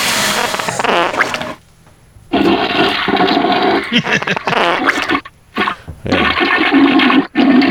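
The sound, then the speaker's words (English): Toilet flush sound effect, a loud rushing, gurgling surge of water lasting several seconds, broken by a few short pauses before the flow resumes. “I don't know if I have a toilet flushing. You have a toilet flushing. Oh. Here we go. I think I have one as well. There it is.”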